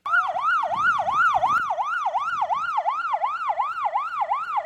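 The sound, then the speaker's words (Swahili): An ambulance siren wails in Sierra Leone during disaster recovery work. The loud, rapid rise-and-fall cycles repeat steadily throughout and stand alone with no talk. “Vingora vya magari ya kubeba wagonjwa”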